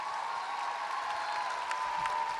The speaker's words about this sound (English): Applaud the poet.